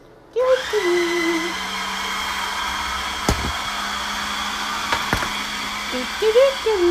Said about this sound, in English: All right, I'm going to blend for a little more.